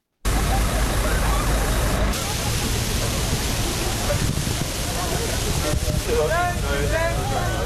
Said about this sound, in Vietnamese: Tại Berlin, đây là âm thanh cảnh sát phun vòi phun nước vào đám đông đang tìm cách giải nhiệt khỏi cái nóng như thiêu đốt.